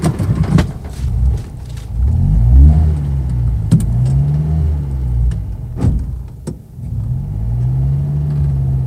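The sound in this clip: A car engine hums low and steady while driving, its pitch rising and falling a few times as it revs, with a few sharp clicks along the way and no voices.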